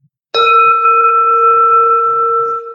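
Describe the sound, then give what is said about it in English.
A bell is struck once and rings on with a bright, steady, sustained tone and clear overtones that barely fade over the next couple of seconds. “Getting ready to strike the bell, and you come down and you stop.”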